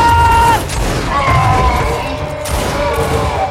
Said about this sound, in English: Front rank, prepare to fire!